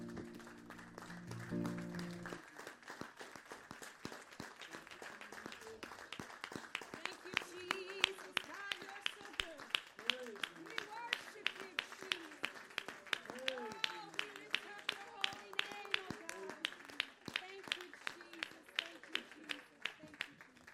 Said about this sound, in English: Let's all stand together this morning and give Jesus a big hand clap of praise.